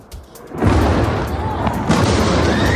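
Explosions in Tehran during an Israeli night offensive: a heavy booming blast, then a second one, each trailing into a loud, rolling rumble that fills the whole clip.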